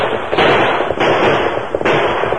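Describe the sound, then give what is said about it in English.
Several sharp gunshots ring out during a chase past a grove, loud and cracking, with a few spaced blasts over a dense, continuous rumble. “The three crooks were passing a grove when shots rang out behind them.”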